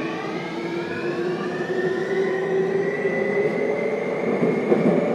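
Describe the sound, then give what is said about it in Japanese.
A local commuter train on an all-stations service runs along a curving stretch of track. Its steady, loud rumble continues throughout, with whining motor tones above it and no voices. “この電車は各駅停車和光市行きです。”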